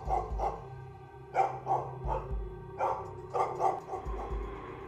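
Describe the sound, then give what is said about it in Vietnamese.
A house dog barks repeatedly in many short, sharp barks, some coming in quick pairs, with brief gaps between them and no talk. “cho đến khi có tiếng con chó nhà gần đó sủa giống cả lên. Con mèo mới chịu quay đầu bỏ đi.”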